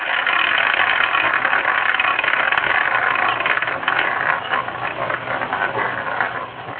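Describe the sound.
A prize wheel spins to pick a player's role at random in a game, giving a loud, continuous rapid rattling whir that holds steady and eases slightly toward the end.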